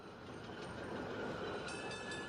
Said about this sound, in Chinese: 一辆电车开过来，一转眼的功夫，莲花已经上车。